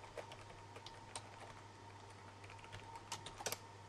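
Computer keyboard typing as login credentials are entered: many quiet, irregular keystrokes with clusters of faster taps toward the end, alone without voices.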